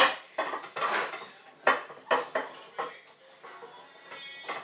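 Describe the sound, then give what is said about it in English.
Plate and cutlery being handled while washing up a plate with leftover scrambled egg: a series of sharp clinks, knocks and scrapes at an irregular pace, with no talk. “I don't know what was on this plate. I think it was scrambled egg from last night.”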